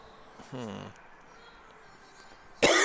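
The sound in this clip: A sudden harsh cough near the end comes from someone who swallowed smoke from a Studio 21 robusto cigar outdoors on a windy day, after a short voiced sound and a quiet stretch.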